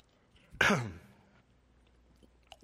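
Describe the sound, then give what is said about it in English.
A single harsh throat-clearing cough from someone with congestion in the back of the throat. It is one short, rough burst that fades quickly, then near silence follows. “Sorry about that, still fighting a little crud in the back of my throat there.”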